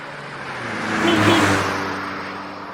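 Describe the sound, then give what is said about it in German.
A car's engine noise is cut into an otherwise quiet recording. A smooth, whooshing engine whir swells to a peak near the middle and then fades away again over a low background hum, with no talk. “Aber, dass ihr euch zu Hause fühlt, werden wir jetzt kurz ein Autogeräusch reinschneiden.”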